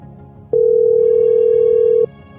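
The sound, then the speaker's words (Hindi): An unanswered telephone call rings out as one steady, mid-pitched electronic tone, loud and lasting about a second and a half, with nothing else sounding. “अरे भैया phone भी नहीं उठा रहे।”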